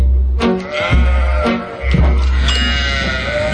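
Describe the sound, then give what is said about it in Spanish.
Sheep bleating in a run of loud, wavering, nasal bleats that overlap and follow closely one after another, with no talk over them. “Y ahí vamos a las ovejitas entrando en el ascensor de los elegidos.”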